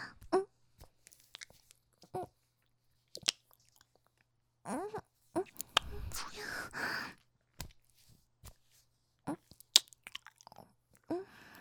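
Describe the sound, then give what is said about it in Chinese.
Someone chews and bites on something sweet, making soft, irregular crunches and wet mouth clicks with occasional breathy sounds, fairly quiet overall. “好吃吗？甜的，我也尝尝。”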